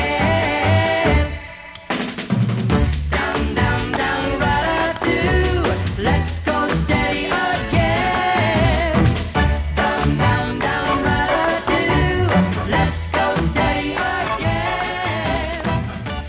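A pop song plays loud and continuous, with a full band and steady rhythmic accents, briefly dipping near the start before carrying on unbroken.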